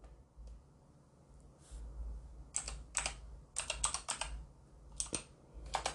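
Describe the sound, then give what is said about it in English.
Typing on a computer keyboard: irregular bursts of quick, sharp key clicks, sparse at first and then busier in dense clusters, with no talk. “I'm going to type this in because my paycheck says administrative assistant.”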